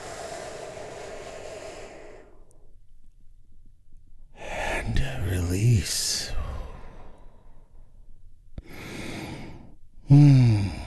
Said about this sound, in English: We do that by taking a big, deep, healing breath all together.